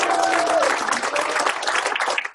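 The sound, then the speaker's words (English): Audience applause at a convention gathering: many hands clap in a steady, full burst that holds level, then slowly tapers off near the end. “So put your hands together and applaud yourselves for coming up.”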